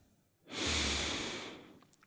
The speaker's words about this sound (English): Okay, full breath in through the nose.